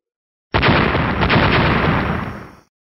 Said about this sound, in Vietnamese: Tiếng nổ mạnh, thanh thế kinh người.